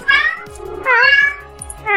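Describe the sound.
A hungry cat meows three times in quick succession, each meow loud and bending in pitch, and the last is cut short.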